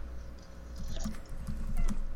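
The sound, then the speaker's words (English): Faint sips of water with soft wet mouth sounds and small swallowing clicks, a few quiet bursts against a low steady background, with no talking. “Let me just take a sip of water.”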